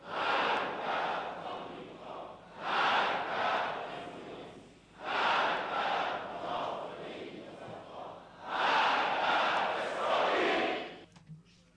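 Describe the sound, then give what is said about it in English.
Audience chanting Allahu Akbar and Khamenei slogans in unison: four loud, sustained bursts of massed voices, each lasting a couple of seconds and separated by brief dips. “The audience is chanting, Allahu Akbar, God is greater, Khamenei is the leader.”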